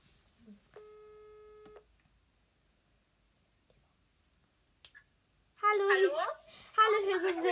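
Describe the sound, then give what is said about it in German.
A telephone ringback tone sounds as a call is placed to a fan: one steady, mid-pitched tone of about a second. Near-silence follows, then people talking. “Und jetzt rufen wir Mrs. Froggy an.”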